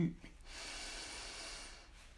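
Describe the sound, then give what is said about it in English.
A deep breath during a guided breathing exercise: one long, soft, airy rush of air holds steady for more than a second, quiet and alone. “Breathe in and out. And one last breath together. Breathe in”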